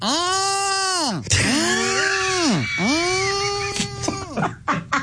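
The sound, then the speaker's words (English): A human voice imitates mating turtles with long, groaning, bleat-like calls. There are three drawn-out moans, each rising and then falling in pitch, followed by a few short, rough bursts. “So I got to see and hear with my own eyes what it is when turtles mate. And it sounds a little like this.”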